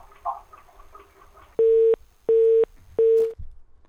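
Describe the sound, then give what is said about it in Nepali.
Busy tone on a phone line after a dropped call: three steady, evenly spaced beeps at one fixed pitch, loud against faint line hiss. “उहाँको phone कटेको छ। कहिलेकाहीँ यो समस्या चाहिँ आइपर्छ, यो चाहिँ नेटवर्कको समस्या हो।”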